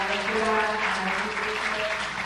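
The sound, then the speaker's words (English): Audience applause at the close of an academic presentation on antibiotic prescription and health policy: dense, steady clapping that fills the whole clip, with voices audible underneath. “I would like to ask you for a round of applause.”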